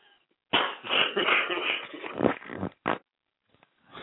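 A coughing fit: a sustained run of harsh, rough coughs and throat-clearing, loud and continuous for about two seconds, then one more short cough after a brief pause.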